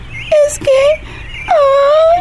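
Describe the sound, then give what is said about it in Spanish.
A girl cries in three loud, high wailing sobs. The first two are short and close together, and after a pause comes a longer, drawn-out wail. “Tranquilízate. Tranquilízate por un momento. No llores.”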